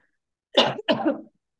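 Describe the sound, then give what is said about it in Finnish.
A coughing fit with a choking quality: two harsh coughs in quick succession, the second slightly longer, with silence before and after. “Anteeksi, mä tukehdun tuon omaan shokkiin.”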